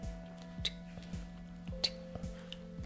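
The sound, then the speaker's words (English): A voice imitates a wall clock ticking in a silent kitchen: faint, evenly spaced clicks about twice a second over a low, steady hum, with no other sounds. “it was the clock on the wall. And I could actually hear the clock ticking.”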